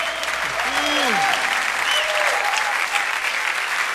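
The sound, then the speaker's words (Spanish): Loud applause from a church audience during worship, a thick, continuous roar of clapping with gliding vocal cries rising above it in the first half. “Aleluia, dale más fuerte ese aplauso al Señor, aleluya.”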